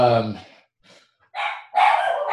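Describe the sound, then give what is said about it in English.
A dog barks briefly at the start, with people talking afterward. “I thought I had my dog sorted out, but there's gardeners next door, and there's only so much I can do when gardeners are next door.”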